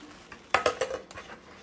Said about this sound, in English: Well, maybe now my lid will fit.